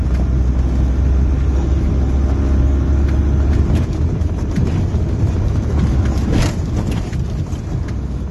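A car driving across fields gives a loud, constant engine rumble and rough road noise that hardly varies, with no talking over it.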